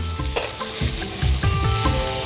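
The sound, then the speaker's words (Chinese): Cucumber slices stir-frying in a hot wok, a steady bright sizzle broken by repeated scraping strokes of the spatula as the slices are tossed, with no voices. “是不是锅温已经上来了？ 是。 好，现在我再翻两下”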